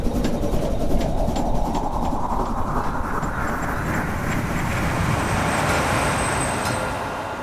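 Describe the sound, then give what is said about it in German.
Steady rumble of a train travelling on rails after boarding at Emden, a loud, continuous wash of rolling noise that holds for the whole clip, with no voices. “Wir sprachen wenig, gingen in Emden von Bord und bestiegen den Zug.”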